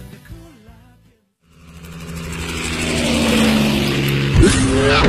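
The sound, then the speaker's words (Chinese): A V8 sports car with an all-aluminium petrol engine revs up. After a brief lull it builds into a loud, sustained, rising roar that holds steady to the end. “车身线条大胆前卫，配备 V8 引擎，全14驱系统，全铝汽油发动机，最高时速超过每小时300公里”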